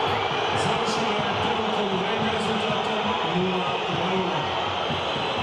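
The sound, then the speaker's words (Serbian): A football match crowd at a Red Star game whistles in protest at the first-half whistle with the score 0-0. It makes a steady, dense, hissing mass of noise with no letup, and a commentator talks over it. “reakcija publike, zvižduci, zvižduci, to s velikim povodom ili razlogom.”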